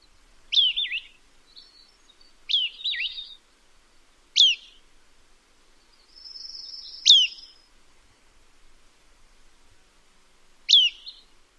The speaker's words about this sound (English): Hammond's does have another unique call that sounds like pirpwit.